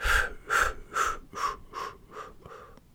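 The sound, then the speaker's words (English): Breath is forced out to empty the lungs during a guided breathing exercise. Seven sharp, breathy exhalations come at an even pace and grow gradually quieter. “Do it one more time. Empty your lungs of air.”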